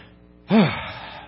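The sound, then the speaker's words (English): A single sharp, gasping breath from a person short of breath with one lung struggling. The brief, loud intake is voiced and swells quickly, then trails off into a softer, fading breath against near silence. “Let me take a breath.”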